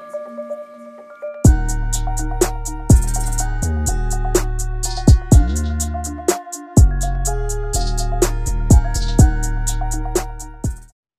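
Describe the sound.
Snippet of a new music track: a short quiet intro gives way to a loud, full groove with deep bass, a steady beat and sharp accented hits that continue until the track fades out at the end.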